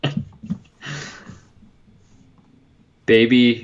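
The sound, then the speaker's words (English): Pen scratching on paper as someone writes out a word during a league draft, a short burst of quick scratchy strokes that is quiet and brief, with someone starting to talk at the end. “Tiantris, I'm just going to keep writing bust.”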